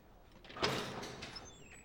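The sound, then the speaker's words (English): A diner's glass door opens as a man heads out toward the parking lot: a soft, sweeping whoosh swells suddenly and then fades slowly. It stays quiet throughout, with faint high squeaks near the end. “Ali slides out of their booth and ambles through the quiet diner. Rue turns her head slightly to watch him go to the door.”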